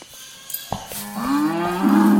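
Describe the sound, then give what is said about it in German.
A loose cow lets out one long, loud moo that swells and holds, following a few faint knocks and rustles. “Rind hat sie losgerissen, ich mach's schnell wieder fest.”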